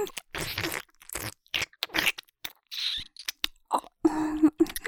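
Wet mouth sounds of nibbling and licking ears: many short, crisp clicks, smacks and crunchy bursts in an irregular rhythm, separated by brief silences.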